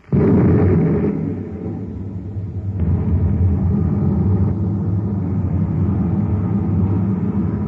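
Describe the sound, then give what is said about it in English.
Spaceship rockets firing at half-G acceleration give a loud, steady low rumble with a roaring hiss. It starts abruptly, surges again a few seconds in, and holds at full strength to the end with no voices. “Stand by to fire rockets. Half G acceleration. Standing by, sir. One half G. Fire rockets.”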